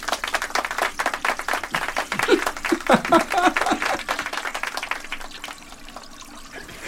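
Rushing water in a flushing sound effect, as a story is tossed into the sewer: a dense, noisy gush that swells through the middle and thins out toward the end.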